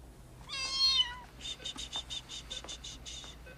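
A kitten gives one high, wavering meow, followed by a run of rapid, rhythmic insect-like chirping pulses that carry on to the end.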